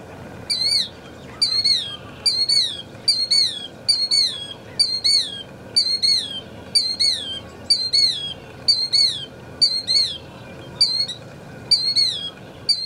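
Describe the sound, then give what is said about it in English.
A flock of birds gives many high, chirping squawk calls in a steady, regular rhythm, each a short burst, over a faint background. “This is the sound of a Crawfordsville monster.”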